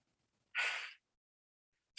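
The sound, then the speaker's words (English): A person breathes out once through the mouth in a short, airy, hissing exhale, followed by silence and the start of another breath at the very end. “breathing out of your mouth for 8 seconds. Like, I hope you can hear that.”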